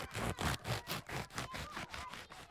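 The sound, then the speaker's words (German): A rapid, even series of rasping, scraping strokes as a screen opening is cut into a cardboard box, each stroke a short harsh burst. “Dieser Karton ist unser Fernseher. Na, gib mal her. Da schneide ich erstmal einen Bildschirm rein.”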